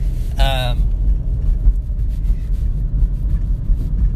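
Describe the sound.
A car being driven produces a constant low engine and road rumble, steady and even throughout with no breaks.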